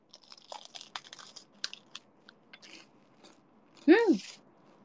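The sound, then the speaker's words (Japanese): Crunchy bites into a limited-edition bread with a curry-like colour, many small crackly bursts of chewing, followed by a short, louder voiced sound. “なんか普通のパンよりカレー色みたいな色してるけどカレーじゃないよね。いただきまーす。”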